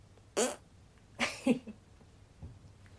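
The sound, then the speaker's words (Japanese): A person farts after lunch: a few short, quiet bursts of flatulence, the first brief, the second longer with a double pulse, then a faint little puff, with soft silence between them and no talking. “胃腸がだいぶ動いてる感じがしておならが出そうなので出していこうと思います。”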